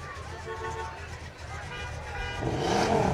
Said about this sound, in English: Rev it up, baby.